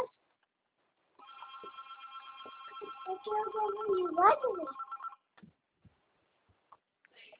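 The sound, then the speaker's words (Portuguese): A telephone rings for about four seconds as a steady electronic trill with bright, buzzing overtones, and a voice calls out over the ringing before it stops abruptly. “Telefone! Telefone!”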